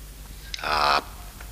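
A raven caws once: a harsh, buzzy call about half a second long that stands alone against a quiet background.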